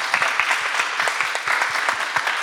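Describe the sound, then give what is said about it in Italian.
Audience applause of encouragement for a fan at a live event in Bologna, with many claps blending into a dense, steady patter throughout, no voices over it. “Allora intanto presentiamola e facciamo un applauso. Un applauso di incoraggiamento.”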